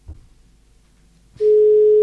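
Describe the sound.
A telephone ringback tone sounds while a guest is being called: after a short, mostly quiet stretch with a faint sound near the start, a loud, steady single-pitch tone begins and holds unbroken to the end.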